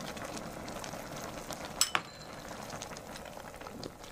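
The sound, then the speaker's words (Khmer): Soup with mushrooms and meat boiling in a pot, giving a steady bubbling hiss throughout, with a couple of brief metallic clinks near the middle. “នៅពេលនេះសម្លយើងពុះហើយ”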